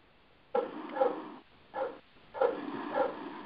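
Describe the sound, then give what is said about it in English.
A dog barks in a few drawn-out, harmonic bursts spread over about three seconds, fairly loud and with no talking. “I rebuke that dog up there in the name of the Lord. It worked, shut up.”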